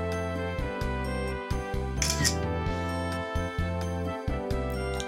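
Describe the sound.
A smartphone camera shutter snaps once as a photo of a face is taken in a face-editing app, a short crisp click heard over a steady humming tonal background.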